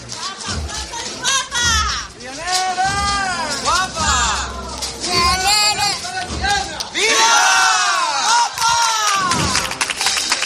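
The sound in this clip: A crowd cheers and claps at a religious procession in Triana as a statue of the Virgin passes before a chapel under falling petals, many voices shouting and calling out loudly over scattered clapping, rising and ebbing throughout.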